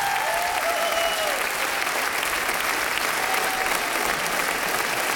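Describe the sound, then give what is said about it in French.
An audience in a radio studio gives a standing ovation, a dense, steady wash of applause sustained at full volume for the whole stretch, with faint voices and a few whistles mixed in. “Et le public ici, au studio 104 de la Maison de la Radio et de la Musique, s'est levé. Une ovation pour Stéphane Hichère.”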